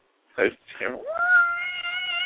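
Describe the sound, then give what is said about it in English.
A cat meowing: after two short vocal sounds comes one long, drawn-out, steady meow that holds its tone to the end. “And what was that? Was that a cat? Yeah.”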